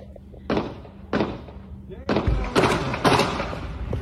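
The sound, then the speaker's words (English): Gunshots from a played police video of a fight with an officer at a McDonald's: several sharp, loud bursts at irregular intervals, with voices underneath. “I counted 17 shots. Damn. All right. So keep that camera on him. Now here comes the other cops, right? Now, I counted 17 shots.”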